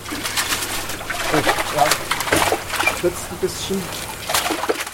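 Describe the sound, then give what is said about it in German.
A net scoops a fish out of a darkened 500-litre tank in a research hall at TU Dresden, where chub, brown trout and eels are kept. Several watery sloshes and splashes come under a voice that is talking. “Ich kescher jetzt einen der Fische raus.”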